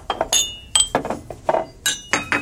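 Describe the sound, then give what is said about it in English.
Plates of food set down one after another on a table by waiters, a quick run of bright clinks and clatters of crockery and glassware, with no talk. “Three waiters emerge from the back. They place plate after plate of food on the table.”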